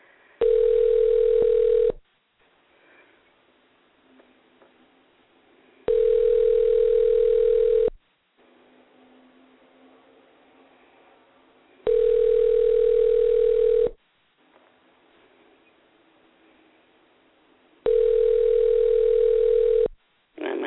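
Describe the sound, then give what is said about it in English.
A telephone line tone sounds after a number is dialed: four steady, loud two-second tones repeat in an even on-off pattern with roughly four-second gaps of faint line hiss between them. “And let's try dialing and see what we get.”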